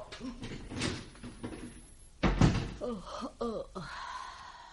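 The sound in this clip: A door is shut with a single heavy thud midway through, while people talk before and after it.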